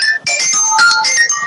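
A phone ringtone for an incoming call plays as a bright electronic melody of many short, quick notes, loud and without talk.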